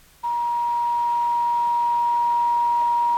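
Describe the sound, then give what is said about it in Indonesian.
A steady single-pitched telephone tone sounds after a caller's line drops. It cuts in abruptly after a brief quiet moment and holds unchanged and loud for about three seconds. “Iya, nampaknya ini sepertinya terputus ya.”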